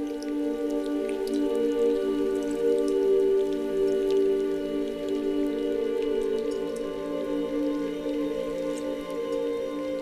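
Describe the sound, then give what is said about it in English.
Meltwater river rushing along the side of a retreating glacier. It makes a steady, continuous roar of flowing water with fine dripping and splashing texture. The level stays even the whole time, with no voices. “the water that's thinning comes out of the glacier on the sides and usually makes these rushing rivers along the sides of the glaciers. That sound to me is a signature sound of a glacier that's in advanced retreat.”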